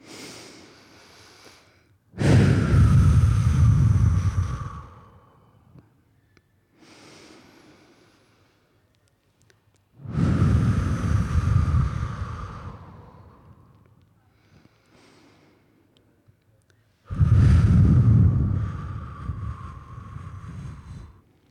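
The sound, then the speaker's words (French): Two people take three deep morning breaths together, each a long, loud, airy inhale-exhale lasting a few seconds, separated by quiet pauses, with a breathy, wind-like rush on the microphone. “On peut respirer ensemble pour les classiques trois grandes respirations du matin.”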